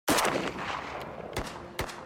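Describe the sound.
Gunfire at a shooting range: one loud shot whose ringing tail fills the first second, then two more sharp cracks in quick succession, with no voices.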